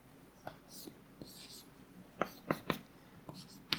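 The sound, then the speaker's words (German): Scratchy strokes and sharp ticks of handwriting as a grammar is written down by hand. Short, irregular marks come and go, a few louder taps stand out near the end, and faint whispered sounds run underneath. “Ich schreibe mal die Grammatik hin.”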